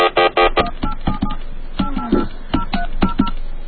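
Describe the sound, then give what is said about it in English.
Touch-tone telephone dialing sounds as a quick run of many short, clear two-note beeps while a number is keyed in, loud and alone. “I dialed the wrong number. I dialed Satan's hotline.”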